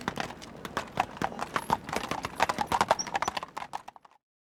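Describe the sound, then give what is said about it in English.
Hooves of a horse-drawn carriage galloping in a fast, uneven clip-clop. Many sharp hoofbeats patter at a brisk, steady pace, then the sound ends abruptly near the close. “I worried as we galloped along.”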